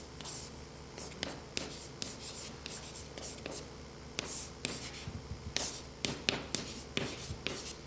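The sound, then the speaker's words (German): Handwriting with a pen while explaining program code: many quiet, scratchy strokes in irregular short bursts over a faint steady hiss. “Vielleicht schreibe ich das mal hier auf.”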